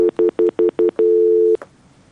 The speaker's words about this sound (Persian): بله تماس از اونا قطع شد.